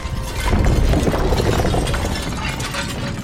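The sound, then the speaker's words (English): A wooden structure collapses and crashes down in a dense, loud crash that swells quickly and holds as a sustained roar of breaking debris. “With both hands, the dissenter yanks on the belt and the structure falls, crushing his head and toppling Brassbody.”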